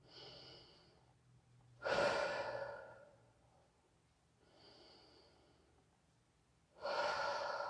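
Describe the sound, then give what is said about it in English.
Deep breathing in a guided relaxation exercise, inhaling through the nose and exhaling through the mouth: two slow cycles, each a soft airy inhale followed by a louder, breathy exhale, faint and alone. “we're going to take 4 deep breaths. We're going to inhale through our nose and exhale through our mouth.”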